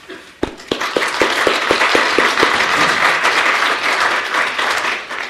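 Applause greets a lecturer at an academic lecture series. A few sharp, distinct claps open it, then they build into dense, steady clapping that holds loud to the end.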